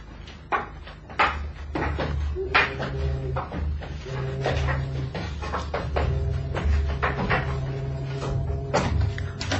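A door being opened with many sharp clicks, knocks and rattles of a latch or handle, scattered over a low, steady hum.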